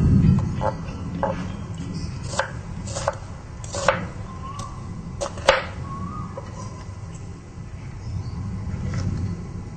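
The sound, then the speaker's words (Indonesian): A knife chops a large onion into small pieces, giving several sharp, quiet taps in an irregular rhythm over a low, steady background hum. “Untuk bawang besar ni, kita potong kecil-kecil.”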